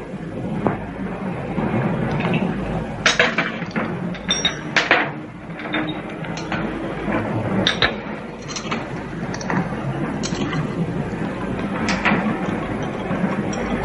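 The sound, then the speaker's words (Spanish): Light metallic clinks and scrapes of a teaspoon stirring coffee in a cup, just after sugar cubes are offered, forming a steady run of small ticks over a continuous soft background hiss, with no talk. “El joven la mira fijamente mientras remueve la bebida con una cucharilla.”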